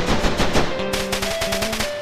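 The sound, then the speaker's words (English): Rapid fire from a German machine gun in a video game: a dense stream of sharp shots hammering in quick succession, with steady sustained tones running beneath. “Who shot the German? Who shot the German machine gun?”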